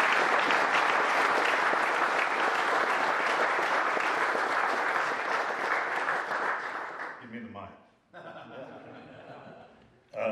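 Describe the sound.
Audience applause welcomes a speaker to an evening gathering: dense, steady clapping from many hands runs for about seven seconds, then fades out and gives way to quieter talking.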